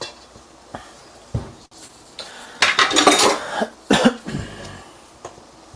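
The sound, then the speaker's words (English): Stirring a very stiff dough in a bowl, with a spoon scraping and knocking against the bowl in a few short bursts, the busiest stretch in the middle, and no talk. “Now we're going to stir.”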